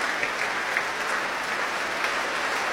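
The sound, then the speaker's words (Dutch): Audience applause after an orchestral performance of a symphony in Amsterdam, dense, even clapping held at a moderate level throughout. “Ja, met terecht een groot applaus hier in Amsterdam voor deze”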